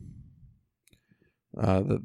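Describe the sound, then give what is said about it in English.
A few faint computer mouse clicks, small sharp ticks in a brief pause, with a person talking just before and after. “Now, if I click on that number above it, the 3874, that's going to take me to Strong's Concordance, our dictionary, so to speak.”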